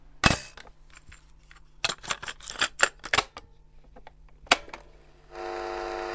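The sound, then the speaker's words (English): A cassette recorder's record and play buttons being pressed: many sharp mechanical clicks and clunks of varying strength come in an uneven sequence, then a steady motor whir starts near the end and keeps running. “That is just something so many of us will remember very clearly, that particularly hitting record at the same time as you're hitting play.”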